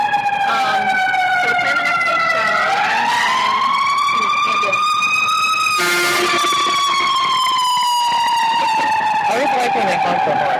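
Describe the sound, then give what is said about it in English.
Emergency vehicle siren wailing continuously and loudly, its tone sweeping up and down in long glides with a sharp shift midway. “it's a good horn. The siren isn't enough”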